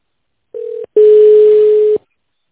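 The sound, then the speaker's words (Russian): Telephone keypad tones dialing an extension on a business phone line: a short steady beep, then a longer steady tone at the same pitch, both loud and clean with no talk. “If you know the extension number of the employee you'd like to reach, please press pound and dial it on your phone.”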